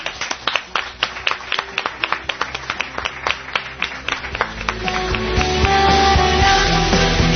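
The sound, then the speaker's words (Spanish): Applause from a studio audience: many hands clapping in quick irregular bursts that thicken into a denser, louder wash of applause toward the end, with no talking over it. “desde aquí nuestro aplauso y vuestro aplauso para vosotros mismos.”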